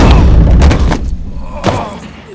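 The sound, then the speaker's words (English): A running person slams into a clean glass wall, giving a few loud, dull thumps over a noisy background. “Paul sprints into a glass wall”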